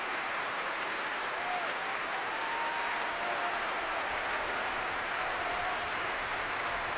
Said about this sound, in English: but he turns to face this ovation from the Royal Albert Hall audience. The players of the Staatskapelle Berlin on their feet.